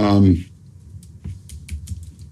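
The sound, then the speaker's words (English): Fingers type on a computer keyboard. A brief voice sounds at the start, then many quick, light key clicks follow in an uneven rhythm, fairly faint. “that's me typing, you guys, because I didn't do it quick enough.”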